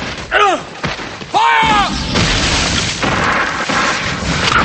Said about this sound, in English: The redcoats shoot and militiamen fall. Others shoot and more militiamen fall.